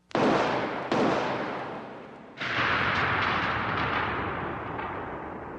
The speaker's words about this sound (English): Gandhi and fired 3 shots with a small revolver